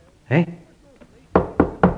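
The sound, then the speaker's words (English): Knocking at a door: three sharp, evenly spaced raps in quick succession, preceded by a brief voiced sound. “The knock at the door.”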